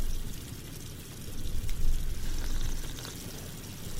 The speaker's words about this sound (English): Should I try the sink? Yeah, go for it. It's working.